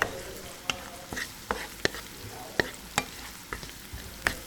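Onion fries in olive oil with a steady, soft sizzle, punctuated by many sharp clicks of a utensil stirring the pan at an uneven rhythm.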